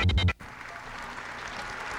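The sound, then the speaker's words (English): Audience applause breaks out during a presidential speech. A brief low thumping burst opens the sound, then gives way to steady, continuous clapping that holds evenly to the end. “I can see on my monitor here that the speech has broken for some applause.”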